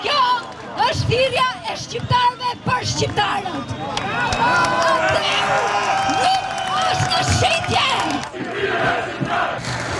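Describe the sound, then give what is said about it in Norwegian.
Protesters shouting in Tirana, Albania, against a luxury resort planned in a coastal nature reserve, a loud, dense crowd roar with chanting voices, whistle-like tones and scattered individual shouts throughout. “Folk protesterer, sånn høres det ut”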